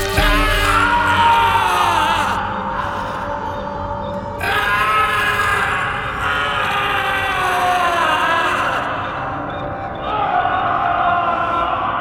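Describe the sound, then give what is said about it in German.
Loud, anguished screaming of terror and pain from a man struck on the skull with an ice pick, drawn-out cries with wavering pitch that continue throughout with only brief dips. “Der Schrei des Entsetzens und des Schmerzes erschütterte die Fundamente der Festung in der Calle Vena.”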